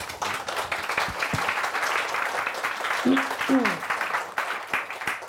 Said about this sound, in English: Please join me in putting your hands together to welcome Anne, Ellie.